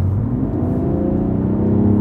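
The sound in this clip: A BMW M340d diesel car downshifting in sport plus mode: a loud, steady low engine rumble and whir that continues throughout.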